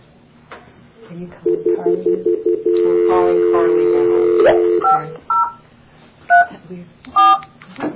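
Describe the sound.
Telephone keypad dialing tones: a quick run of short, even beeps, then one long steady tone, then a few separate two-note tones spaced apart. All are clear and fairly loud.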